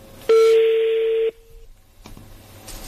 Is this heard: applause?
no